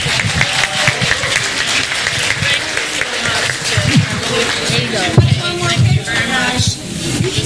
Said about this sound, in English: So ladies and gentlemen, put your hands together and let's welcome Claudia Browner.